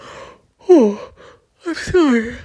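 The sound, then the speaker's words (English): Yawning from a tired person late at night: two long, drawn-out voiced yawns, each with a pitch that slides downward, with a fainter breathy sound at the start. “you're gonna have to bear with me and listen to my yawns”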